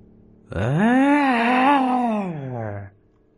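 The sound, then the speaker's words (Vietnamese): A single anguished wail blends into a groan, one drawn-out voiced cry lasting over two seconds. It swells quickly, holds a strained, slightly wavering pitch, then sags lower before breaking off. “Tiếng kêu rên thảm thiết vang lên.”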